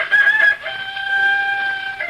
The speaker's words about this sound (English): Where there's a rooster, there's people. You mean where there's a rooster, there's chickens.